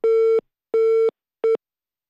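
A telephone busy tone after a call is hung up: three loud, even beeps at one pitch with short gaps between them, the last beep shorter than the first two.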